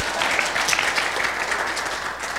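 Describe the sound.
Audience applause welcoming guests at a gathering, a dense, steady patter of many hands clapping throughout, fairly loud and without talk.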